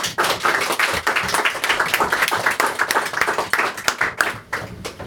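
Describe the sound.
Audience applause welcomes an author at a book reading event. Dense, sustained clapping stays loud and steady throughout.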